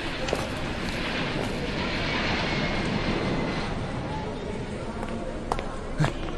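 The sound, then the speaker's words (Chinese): Steady, loud roar of jet aircraft engines from Boeing 737-800 airliners on an airport apron, a broad, unbroken rumble and hiss that holds for the whole stretch. “快来看，停机坪上两架波音737-800， 还铺了红毯，好像是专机啊。”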